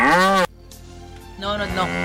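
A cow moos twice, each a loud, drawn-out low call with a short quiet gap between them and no talk over either.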